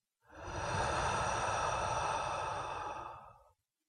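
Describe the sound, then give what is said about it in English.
A deep breath during a guided relaxation exercise comes through as one long, smooth, breathy whoosh of air lasting about three seconds, steady in loudness and heard alone. “Let's all take a breath in through the nose and out through the mouth.”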